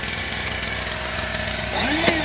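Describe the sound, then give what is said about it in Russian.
A battery-powered air pump runs while inflating something, giving off a steady, buzzing motor drone that grows slightly louder toward the end. “То есть вы его и надуваете с этим прибором.”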